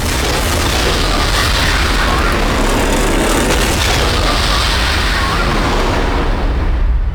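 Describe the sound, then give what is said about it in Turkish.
A loud explosion set off by a demolition team: a dense, roaring blast of deep rumble and hiss that fills the whole clip at a steady level. “İmha ekibi hazır efendim. Patlatın.”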